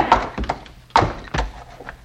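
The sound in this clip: A club strikes a mule's head in several dull, heavy thuds at an uneven rhythm, with two blows standing out louder than the rest.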